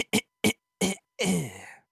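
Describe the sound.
A voice imitates a choking cough after inhaling sour powder: a few short, sharp cough bursts followed by one longer, strained, voiced rasp, fairly loud, with no other talk.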